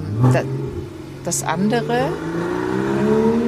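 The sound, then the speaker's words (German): A Porsche revs as it drives past, its engine tone climbing steadily in pitch and growing louder, while people talk over the first half. “das andere, das da ist ein Porsche. Tatsächlich ist gerade ein Auto an uns vorbeigefahren und der musste irgendwie nochmal auf sich aufmerksam machen.”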